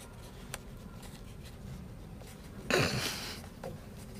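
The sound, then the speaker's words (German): Faint scratching of a pen writing a note on paper, with soft intermittent strokes and a brief, louder papery rustle partway through, all very quiet with no talk. “Du schreibst einen Zettel?”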